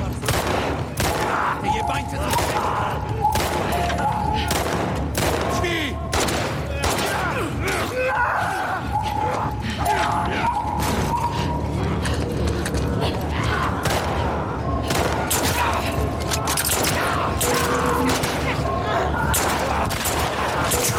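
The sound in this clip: Pistol gunfire in a video game: many sharp cracks and rapid bursts of shots over a dense, continuous wash of game sound, with clanking mechanical and creaking noises.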